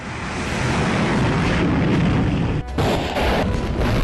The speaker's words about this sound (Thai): ฝึกซ้อมทางทหารและทดสอบยิงจรวดขีปนาวุธพิสัยใกล้ชนิดใหม่ 2 ลูก